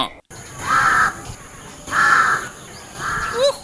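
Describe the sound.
Crow cawing in the early morning: three harsh, rasping caws evenly spaced about a second apart, loud over a steady background hiss.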